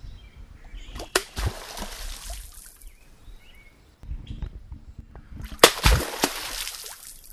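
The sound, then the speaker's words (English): An American beaver smacks its tail on the surface of a creek as it submerges: two sharp splats, each followed by splashing and trickling water, with quieter lapping in between. “That was the sound of an American beaver smacking its tail on the surface of a creek as the animal submerged.”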